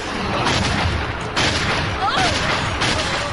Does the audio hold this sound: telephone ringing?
no

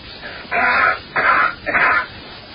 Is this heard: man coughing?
yes

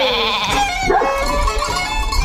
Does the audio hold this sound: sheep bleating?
yes

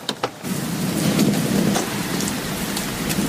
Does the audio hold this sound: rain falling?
yes

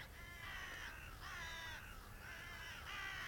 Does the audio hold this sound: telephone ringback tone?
no

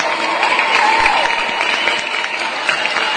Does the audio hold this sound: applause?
yes

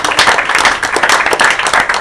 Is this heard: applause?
yes

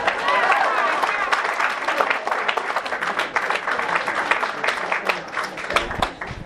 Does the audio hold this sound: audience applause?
yes

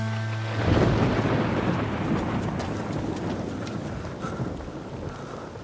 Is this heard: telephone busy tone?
no

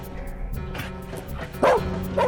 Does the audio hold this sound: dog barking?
yes

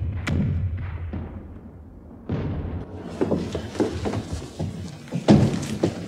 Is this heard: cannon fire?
yes

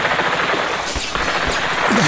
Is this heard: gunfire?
yes

